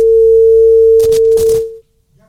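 A steady phone line tone after the caller hung up, one loud continuous pitch with brief crackling bursts near its end before it cuts off into near silence.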